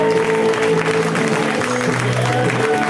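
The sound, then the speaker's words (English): A comedy club audience applauds a comedian with steady, dense clapping that stays at an even, fairly loud level for three seconds. “you guys keep it going for Rhea Butcher. Give her a round of applause, huh?”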